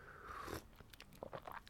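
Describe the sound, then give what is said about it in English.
A short, soft, airy slurp from a cup of coffee, followed by a few faint small clicks and mouth sounds, with no talking. “I have a cup of coffee. And I shall have a little... Yes, a little sit down and have a little natter to you first thing in the morning. Had a not a good night last night. Excuse me, just having a slurp.”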